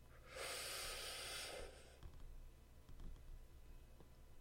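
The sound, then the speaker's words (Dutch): One long, deep inhalation rushes in as a broad, airy hiss lasting over a second, then gives way to near silence with a few faint clicks. The whole recording is very quiet. “Wat ik doe en wat werkt, is haal diep adem.”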